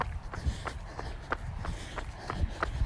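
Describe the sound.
Running footsteps on Ridge Road, a steady, quick rhythm of light thuds landing roughly three times a second, evenly spaced and unbroken.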